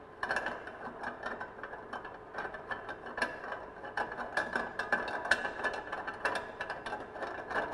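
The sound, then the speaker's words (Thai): Rapid mechanical ratcheting clicks as a locking ring is loosened to twist the barrel off a machine for cleaning, many irregular clicks continuing throughout at a steady, moderate level with no talking. “เราต้องหมุนหลอดออกก่อนนะครับก็คลายตัวล็อกนะครับคลายตัวล็อกนะครับ”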